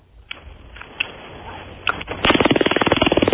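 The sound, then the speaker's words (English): A handheld stun gun clicks and crackles: a few scattered sharp clicks, then a loud, rapid, evenly spaced train of harsh electric snaps that runs steadily to the end, with no talk over it. “That sounds legit. What can this do? I mean, some of these stun guns could actually completely incapacitate you.”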